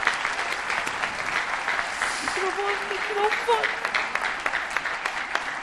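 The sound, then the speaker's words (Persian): A live show audience applauds itself with sustained, steady clapping. Crowd voices mix in, and one voice calls out briefly over the applause partway through. “یه دست به افتخار خودتون بزنید.”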